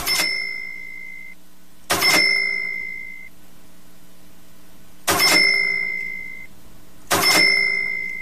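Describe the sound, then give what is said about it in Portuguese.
A cash register bell dings four times at uneven intervals, each strike a bright metallic ring that fades out before the next. “a caixa registradora apitou, isso quer dizer que tem o quê?”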